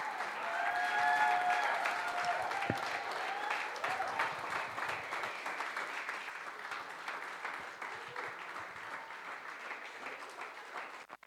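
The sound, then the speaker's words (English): Church audience applauding together during a service, a dense, steady wash of clapping that fills the whole clip and slowly thins toward the end. “make a joyful noise and put your hands together for our pastor”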